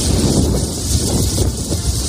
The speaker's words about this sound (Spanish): Y eso que el viento, como escuchas, ha dado cierta tregua en las últimas horas, aunque la tramontana ha vuelto a soplar con fuerza esta noche.